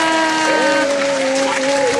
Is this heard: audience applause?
yes